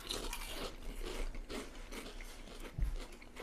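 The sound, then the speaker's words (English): Someone bites into and chews a vegan potato chip, producing faint, crisp crunches and crackles, with one sharper bite near the end. “It just tastes like a regular ass potato chip.”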